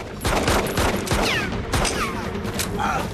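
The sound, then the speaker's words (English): Pistol gunfire from a snowy battle near an airbase, many loud shots fired in quick, dense succession with no pauses, mixed with sweeping whistling streaks. “When his pistol is out of ammo, he picks up the other one and fires on.”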